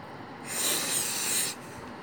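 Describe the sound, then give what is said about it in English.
A person snorts a line of drugs in one long, sharp nasal inhale, a breathy hiss lasting about a second over low background noise. “Gaillon, you always snort on a hit? Sharpens my concentration.”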